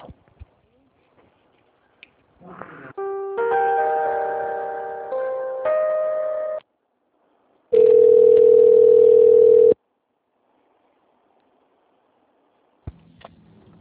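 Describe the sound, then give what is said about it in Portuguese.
Telephone line tones play while a call is transferred: a few short beeps, then a stepped run of tones, a pause, and a steady single tone of about two seconds. Faint clicks come at the start and end, with silence between. “Eu vou passar a ligação e aí você fala com quem você precisa falar”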